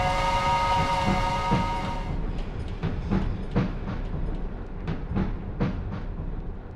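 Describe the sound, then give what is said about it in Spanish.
A departing train with its bell ringing in repeated paired strikes. A steady tonal sound fills the opening seconds over continuous rumbling. “¡El tren, chicos, se va el tren! Suena la campana y sale el tren.”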